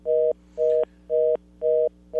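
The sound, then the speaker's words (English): A phone line gives off a repeating beep tone: four steady, mid-pitched beeps at an even, roughly half-second rhythm, with a fifth just starting. A low constant hum runs underneath. “we need to get rid of the beeping”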